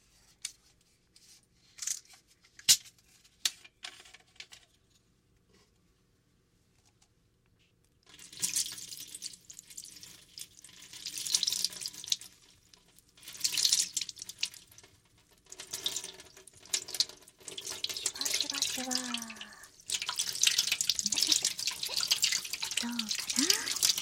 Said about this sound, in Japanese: まずは髪を炭酸水で濡らしてっと